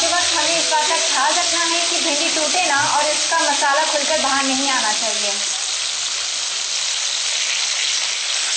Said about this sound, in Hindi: भिंडी कुछ कुछ फ्राई होने लगी है, अब अगर आप चाहें तो थोड़ी देर के लिए गैस का फ्लेम कम कर सकते हैं अन्यथा भिंडी जल जाएगी।